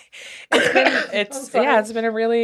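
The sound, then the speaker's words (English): Coughing and throat clearing: a few rough, loud bursts run together with voiced sounds, starting after a faint opening. “I can't laugh too much this episode. I'm gonna keep coughing.”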